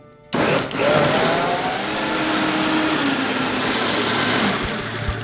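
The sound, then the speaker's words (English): Blender pureeing ingredients with salt and extra virgin olive oil, kicking in abruptly and running as a loud, steady whirring roar for about five seconds, with no talk. “All right, a little bit of salt and some oil. Now, I'm going to use some nice extra virgin olive oil in this. We're just going to puree this.”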